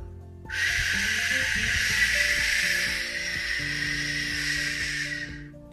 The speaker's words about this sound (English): That is not the sound of a deer. That's the sound of a waterfall.